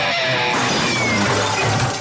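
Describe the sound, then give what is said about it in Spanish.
An old guitar is smashed: a loud, dense crashing burst with ringing, metallic tones woven through it. It holds steady and then cuts away sharply at the end. “Atrévase a romper su guitarra vieja con Radioactiva.”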